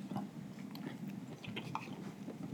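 Someone bites and chews food, heard as faint, quick crunchy bites and mouth sounds scattered over a low, steady background hum, with no talking.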